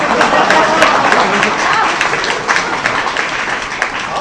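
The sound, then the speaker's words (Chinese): Audience applause at a Chinese crosstalk comedy performance, a brisk, dense clatter of clapping that is loud and fairly even, with voices mixed in. “没学之前，哎呦，您给鼓鼓掌吧，我谢谢您了”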